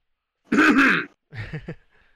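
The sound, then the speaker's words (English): Someone clears their throat alone: a long, harsh rasp, then a shorter, choppier grunting clear that fades into a faint breath. “Clear this throat.”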